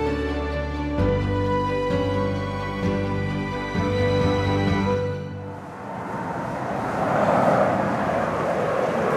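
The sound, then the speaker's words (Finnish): A passenger plane flying quite low over a park in Lisbon, Portugal, heading west, makes a steady droning hum with tonal engine whine that turns into a broad, rushing jet roar. “Matkustajakone lentää varsin matalalla puiston yllä Lissabonissa Portugalissa.”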